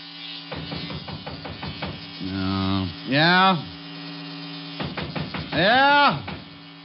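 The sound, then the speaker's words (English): Electric razor buzzing as a shaving sound effect in a radio drama, a loud, harmonic hum that stutters in quick pulses, holds steady, then bends in pitch as it is pressed to the skin, starting and stopping twice. “So I put it on the piano and went in and started to shave.”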